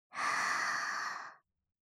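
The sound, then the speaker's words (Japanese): One long, soft exhale from a person during a guided relaxation breathing exercise, a breathy sigh lasting just over a second before silence. “吸って、吐いて。”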